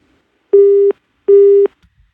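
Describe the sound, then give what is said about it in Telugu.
A phone busy tone sounds after a dropped call: two identical steady mid-pitched beeps, each about 0.4 seconds long, separated by a short silence, loud and with no voices. “Signal లేదు కాబట్టి call cut అయినట్టుంది.”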